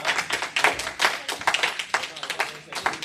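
Applause from a small group congratulating people at an award event, with many quick, irregular claps at moderate loudness throughout.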